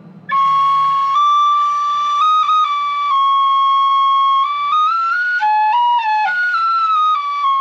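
A homemade flute with randomly punched holes plays a sustained, untempered line of a few off-pitch notes, stepping between them and wavering near the end, clear and alone.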